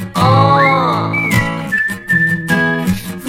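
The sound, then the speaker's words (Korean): Whistling within a Korean pop song: a bright, high whistled line glides upward, then holds a long, steady sustained note over the song's backing music. “점점 가까이 들리잖아 휘파람”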